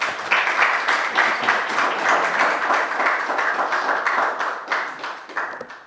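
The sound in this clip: Applause from an audience welcoming the president of the Calvin Coolidge Presidential Foundation: many hands clapping briskly and evenly, with individual claps audible in the fairly loud, sustained ovation.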